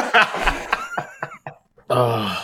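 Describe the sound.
A deliberate cough marks the start of a show: after brief voices and a short pause, one loud, rasping, breathy burst erupts and carries to the end.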